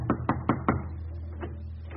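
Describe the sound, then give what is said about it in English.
Knocking on the front door of a home in Berlin: four sharp raps in a quick, even rhythm, followed by a couple of fainter taps, with no voices. “A stormtrooper, revolver in his holster, calls at a German home. He knocks on the front door.”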